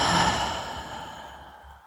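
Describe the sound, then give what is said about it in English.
A deep breath out through the mouth during a guided meditation, a soft, airy whoosh that swells briefly, then fades gradually over about two seconds, heard alone without talk. “Taking a deep breath in through the nose and a deeper breath out the mouth.”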